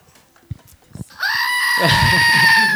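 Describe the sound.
A goat bleats in one long, loud, wavering cry lasting more than a second. A few short clicks and thumps come just before it.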